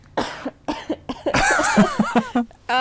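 A few short coughs from a tickle in the throat: sharp, breathy bursts in quick succession, followed by longer strained, voiced throat noises, fairly loud with no speech over them.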